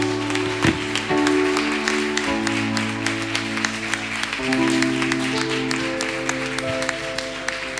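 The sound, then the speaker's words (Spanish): Applause at a church anniversary service, steady clapping that runs the whole length over sustained tones, fairly loud and continuous without clear breaks. “Y un fuerte aplauso para estos siervos de Dios.”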